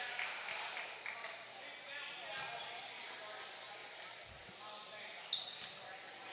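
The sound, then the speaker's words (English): Basketball dribbled at the free throw line during a high school boys' game between Exeter and Springford, a few hollow bounces under steady crowd noise. “He's got the dribble for his second. He toes the line.”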